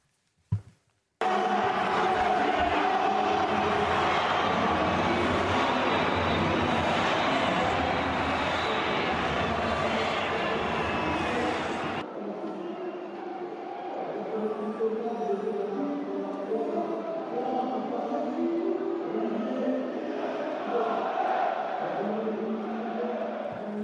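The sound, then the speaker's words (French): Crowd noise from Parisian football fans greeting a player as he steps onto the pitch for training, a steady, dense roar that thins slightly about halfway through and carries on to the end. “on s'attendait quand même à une plus grande ovation. Mais bon, peut-être qu'il n'y avait pas beaucoup de monde dans les tribunes pour l'instant.”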